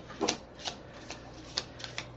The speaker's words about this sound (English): Hold on 1 second. I got one more card coming up. Yep, there it is.